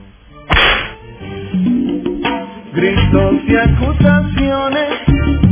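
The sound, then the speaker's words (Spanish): A whip lash cracks once, sharp and loud, from a whip that had tangled in the cold, followed by a dense, continuous tonal backdrop with no clear further cracks. “esos latigazos ahí, ¿verdad? Uno a cada uno y que les aguante. Vamos a desenredarlo otra vez porque con el frío se nos ha enredado el látigo, vamos, dele, eso, así.”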